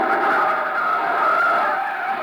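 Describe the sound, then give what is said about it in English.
A car braking hard during a chase, its tires skidding in a loud, sustained screech that holds steady for about two seconds, with no talking over it. “Jam on the brakes.”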